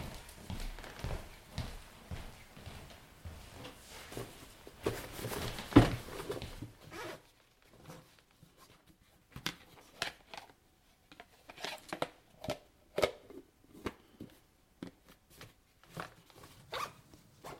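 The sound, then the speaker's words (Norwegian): Footsteps cross to a wardrobe and a backpack is fetched: scuffing steps and rustling, then a pause followed by a string of sharp handling and rummaging noises. “Jeg går bort i garderoben og henter sekken min, jeg.”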